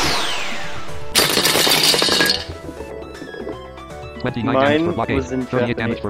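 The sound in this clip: A laser cannon fires in a video game: a bright, metallic blast bursts in at about one second and rings briefly, then a later run of rapid, zapping clinks pulses in quick succession.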